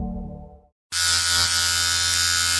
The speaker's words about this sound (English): I was shaving my face.